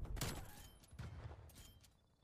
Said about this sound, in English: How'd that shotgun work out that time?